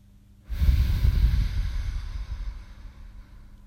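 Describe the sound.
A deep breath taken during a relaxation exercise for easing office tension: an abrupt, breathy rush with a heavy low blowing component that swells, then gradually fades over about three seconds, with no speech.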